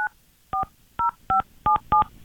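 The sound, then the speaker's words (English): Telephone keypad tones sound as a number is dialed: six short, clear electronic beeps, each a distinct two-tone pitch, spaced in an uneven rhythm. “Let me try this again then. Did your wife already block you? I wonder. Calling my wife, Vanessa.”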